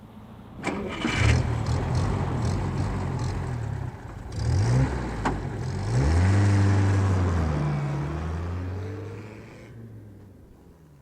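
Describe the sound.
A car engine cranks and catches, then revs several times and drives away, its pitch climbing and falling through the gears. The engine is loud and heard alone, with no voices.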